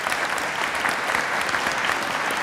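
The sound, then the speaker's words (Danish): An audience gives a round of applause for members of a production crew, steady dense clapping that stays loud and even from start to finish. “Og de skal have en klapsalve.”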